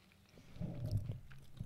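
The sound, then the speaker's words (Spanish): Crunching and chewing of lime-flavored potato chips, a soft, brief burst of crisp bites and mastication. “hoy vamos a estar comiendo papitas de limón. Que si no han probado esa combinación, la verdad se la recomiendo el resto. son papas de limón”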